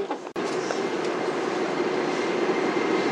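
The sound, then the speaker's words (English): A subway train arrives at Jiaomen East Station. A sharp click is followed by a steady, loud rumble of wheels and carriage noise that continues without a break. “Please get ready for your arrival. 角门东站到了。 We are arriving at 角门 East Station.”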